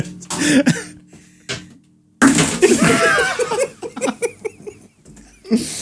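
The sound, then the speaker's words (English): A microphone is smacked while a load of conduit is pulled down, giving a sudden loud thump after a few softer knocks. Voices follow, with bursts that sound like laughter. “I've just pulled down a load of conduit there and I've just smacked the microphone. That was the noise it made.”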